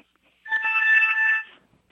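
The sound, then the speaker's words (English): A phone rings with an incoming call on a hotline: one burst of bright electronic ringtone lasting about a second, steady in pitch and heard alone against quiet. “A few minutes later, he gets another call.”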